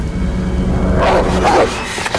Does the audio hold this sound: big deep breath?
no